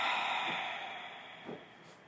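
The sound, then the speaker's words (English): Slow deep breathing: a soft, airy breath rush that is strongest at the start and gradually fades, faint and alone with no talk. “Now start taking your focus to your breath, really. Just creating these beautiful inhalations and exhaling fully.”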